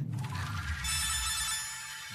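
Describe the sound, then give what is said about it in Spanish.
An incoming call sets a telephone ringing with a bright, sustained electronic ring over low rumbling noise, moderately faint and steady throughout. “Están llamando. Aguanta que atiendo.”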